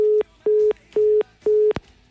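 Telephone tone on an outgoing call that goes unanswered: four short, even beeps at one steady pitch in a quick on-off rhythm, ending with a brief click.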